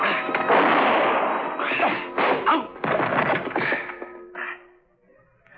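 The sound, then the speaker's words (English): Heavy crashes and thuds as a piano bench is kicked over during a struggle, a radio drama sound effect. Several loud, jumbled impacts follow one another, then the noise dies down to quiet. “I put my right heel tightly against the leg of the piano bench. And then as I felt the cold muzzle of his gun against the back of my head, I suddenly dropped to the floor, kicking the bench against his...”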